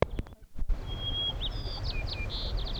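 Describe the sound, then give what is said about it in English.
White-crowned sparrow song: a thin, high whistled note followed by a few short chirps and buzzy slurred notes. It sounds clear over a steady low rumble, with a couple of soft knocks at the start. “White Crown Sparrow B.”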